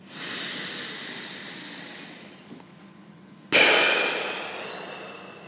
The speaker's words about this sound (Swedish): ta ett djupt andetag in genom näsan och ut genom munnen.